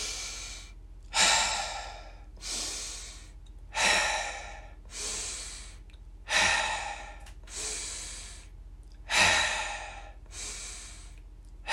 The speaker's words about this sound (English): an inhale in through the nose for 3, exhale out through the mouth for 3. Could do that with me.